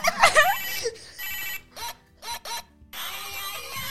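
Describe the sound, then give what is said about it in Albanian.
A mobile phone ringtone plays as a run of bright, high-pitched electronic bursts of uneven length separated by short gaps, following a brief noisy flurry at the start. “Nëse se nuk e keni dëgjuar këtë tingull vetëm një herë në jetën tuaj, nuk e din nëse jeni toksor apo jo. Të kishe këtë lloj telefoni është si të kesh një telefon më të fundit.”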